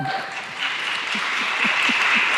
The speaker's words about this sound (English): I have 3,000 questions, so if you're going to applaud at the end of every response, we're going to be here till midnight.